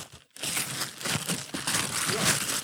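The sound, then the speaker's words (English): Festive gift wrapping paper is ripped open as a Christmas present. After a brief pause at the start, a quiet, continuous crinkling and crackling of paper follows, with irregular louder bursts. “Well, first of all, it's some lovely wrapping paper.”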